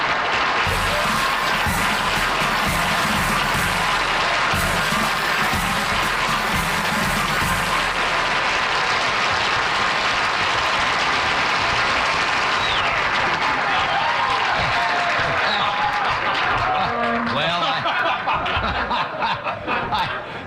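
Applause and laughter from an audience welcoming a person presented as the baby New Year 1975: a dense, sustained wash of clapping with chuckles running through it, loud throughout and thinning slightly near the end.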